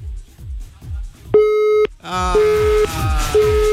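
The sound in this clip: Telephone busy tone after a call ends: a few evenly spaced, steady, mid-pitched beeps repeat at a regular pace, following and over a soft rhythmic low thumping.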